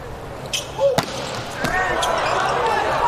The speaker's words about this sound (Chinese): 杨宝奇上来继续发球， 看杨宝奇跳发，前面两个球发的不错